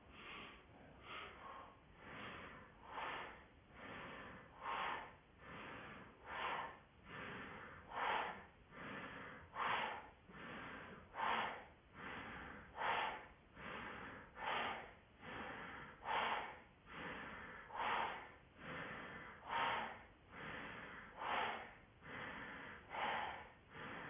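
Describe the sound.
Rhythmic breathing in and out during a yoga breathing exercise: many quick, evenly paced breaths with a nasal, snorting edge, faint and steady throughout with no talk.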